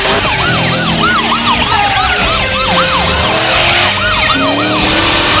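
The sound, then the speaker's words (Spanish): A police car siren wails during a car chase, its loud, rapid rising and falling sweeps repeating without pause over a low vehicle rumble. “Una patrulla aún los persigue.”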